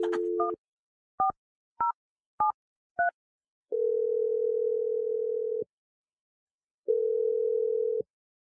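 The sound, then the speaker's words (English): Telephone dialing a number: a handful of short touch-tone beeps in quick succession, then two long, steady ringback tones with a pause between them. “Okay, let's just do this. Here we go. I'm dialing number right now.”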